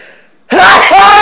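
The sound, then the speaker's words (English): A single loud human sneeze bursts out abruptly after a brief near-quiet moment. It is harsh and forceful, and it stays loud through to the end. “Sorry, bro, but that was a loud sneeze.”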